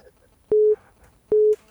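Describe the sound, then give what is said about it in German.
Two short telephone beeps announce an incoming call, each a steady mid-pitched tone about a quarter second long, evenly spaced over a quiet background. “der Benny ruft an, der Stifler, eine Sekunde gerade”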